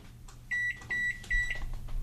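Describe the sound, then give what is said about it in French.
An Amazon Basics microwave oven beeps three times during Wi-Fi setup. The high, steady electronic tones are evenly spaced and fairly quiet over a low background hum. “Le micro-ondes émet un bip et l'écran affiche 00.”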